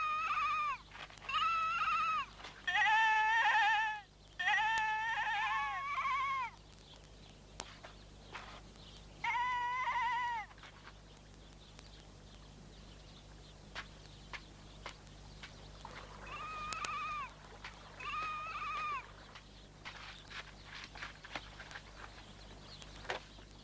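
Lamb bleating in several bursts of wavering, nasal cries, some in quick runs and others spaced apart, with quieter stretches of faint scattered clicks in between.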